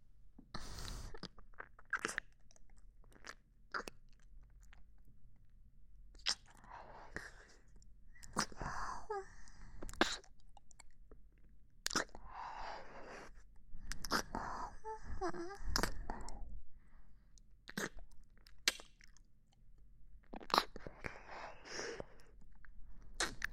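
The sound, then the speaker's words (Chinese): A small female dog chews and tastes food, making faint, sparse crunches and wet smacking clicks in irregular bursts, with soft breathy sniffing sounds between them. “有些擅自主张，但小母狗忍不住要品尝一下了。”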